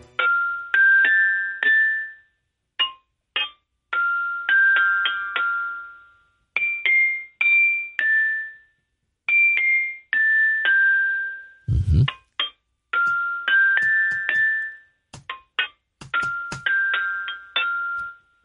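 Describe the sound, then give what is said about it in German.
A melody played on a glockenspiel: many bright, ringing metallic notes struck in short phrases separated by brief pauses, each tone decaying quickly, with one short low knock midway through. “Aber ich entlocke ihm jetzt folgende Melodie dem Glockenspiel. Ja, das ist anstrengend, das Glockenspiel.”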